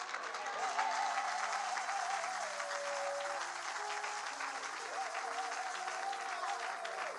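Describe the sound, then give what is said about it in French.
A church audience applauds in steady, dense clapping that holds at an even level throughout, with a sustained musical tone and faint voices underneath. “Est-ce que tu peux l'acclamer?”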